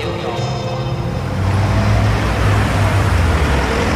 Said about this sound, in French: Ah là là, regardez-moi ça. Une belle Rolls, toute noire, avec une plaque anglaise, volant à droite. Et là, une berline Mercedes, dernier cri.